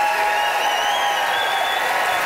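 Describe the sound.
Audience applause at a debate event as the crowd votes for a speaker by clapping: a dense, steady wash of many hands clapping, sustained at an even loudness throughout without breaks.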